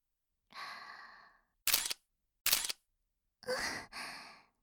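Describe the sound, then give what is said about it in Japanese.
Camera shutter clicks, two short crisp bursts evenly spaced between soft breathy sighs and exhalations, all fairly quiet. “こっち向いてシャッター切ってる。”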